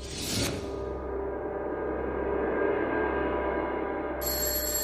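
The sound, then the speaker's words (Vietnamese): A phone alarm rings over a steady, continuous background hum, with bright electronic tones entering near the end. “Tiếng chuông báo thức ở điện thoại reo vang đánh thức An Di”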